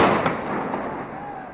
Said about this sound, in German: Immer wieder detonieren Tränengasgranaten.